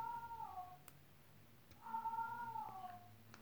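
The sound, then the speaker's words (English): A domestic cat meows twice: a short call, then a longer, drawn-out one. Both are mid-pitched and clear over a low steady hum. “Yeah, that's my cat.”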